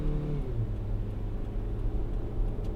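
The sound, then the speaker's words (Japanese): A car engine pulls onto the Chuo Expressway from a smart interchange while merging. A steady, low engine drone blends with constant road noise, moderately loud and unbroken throughout, with no voices. “双葉インターチェンジからスマートインター入りまして、そして中央道にまもなく入ろうとしております。さあもうこういう合流の時もね、初めて運転する車だったら緊張する人もいるかもしれませんが”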